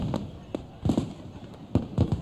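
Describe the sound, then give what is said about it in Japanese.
Fireworks go off in several sharp, separate bangs and crackles at irregular intervals over a soft steady background, with some bursts landing close together. “花火始まっちゃったね。もっと近くまで見に行こうか。”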